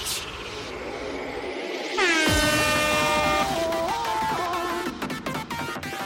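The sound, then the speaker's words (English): An air horn blares in one long, loud, sustained blast that starts partway in and holds to the end over a steady background rush. “It's Airhorn.”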